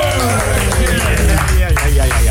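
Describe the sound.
Applause from a studio audience during a live broadcast from the Zwarte Cross festival, dense and steady for the whole stretch, with voices mixed in.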